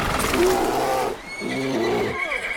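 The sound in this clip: Loud, shrill horse whinnies in two long bursts as a rearing horse throws its rider in a pine forest when a grizzly bear bars the way, with pack mules nearby, over rough breathy noise.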